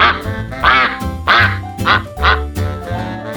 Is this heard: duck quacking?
yes